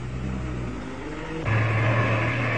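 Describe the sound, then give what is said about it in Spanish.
A dog-catcher truck's engine drives with a steady low rumble that grows louder about halfway through and then holds at that level. “¡Vengan y suban a mi camión, perrera! ¡Mi plan ya está en marcha!”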